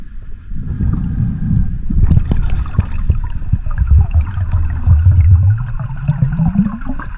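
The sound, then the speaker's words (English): A diver going underwater, recorded for a dive video: a low, muffled watery rumble with bubbling and churning, swelling after the first seconds and staying dense to the end. “And it's the sound of a diver going underwater.”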